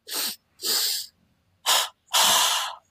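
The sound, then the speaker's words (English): Forceful breathing in through the nose and out through the mouth during a breathing exercise, four sharp breath bursts separated by short silences, with no talk. “This is a 30 breath exercise it's going to be in through the nose and out through the mouth like this.”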